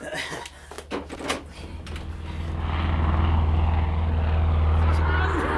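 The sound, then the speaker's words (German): Propeller engines of Dakota transport airplanes drone overhead during a wartime parachute supply drop; after a few knocks and brief voices, a deep, steady engine hum swells about halfway through and stays loud to the end. “Die Flugzeuge!”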